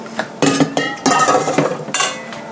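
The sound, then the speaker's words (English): Metallic clanks and knocks as a heavy, full roasting pan is lifted and handled, with several sharp clinks and rattles among a low clatter, no voices. “So now I'm taking it, this whole big roasting pan, and it's heavy”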